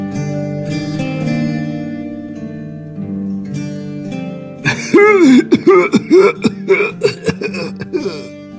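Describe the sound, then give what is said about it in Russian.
A severe coughing fit from a man lying in a wide canopied bed, a rapid series of harsh, strained bursts in the second half, heard over sustained music. “На этот раз приступ кашля был особенно сильным. Казалось, мужчину, лежащего на широкой постели с балдахином, сейчас вывернет наизнанку.”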